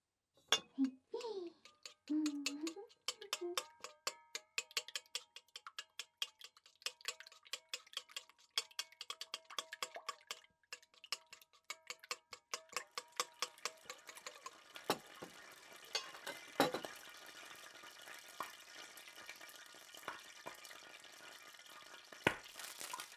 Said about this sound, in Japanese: 卵を溶くのは、あ、ガラス棒でいっか。